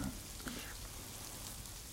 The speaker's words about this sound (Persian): ای خدای من، آبه جا چه احساس خوبی نه؟ دوش میگیرم آبه داغ، دوش میگیرم آبه داغ.